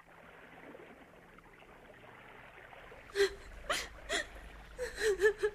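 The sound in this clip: A man cries: broken, wavering sobs and whimpers break out after a quiet stretch of low background hum, in short uneven bursts.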